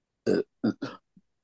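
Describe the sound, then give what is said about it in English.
Belching in short throaty bursts: three louder ones in quick succession, then a brief, faint fourth, heard alone with no talk. “But the belching is really good, too.”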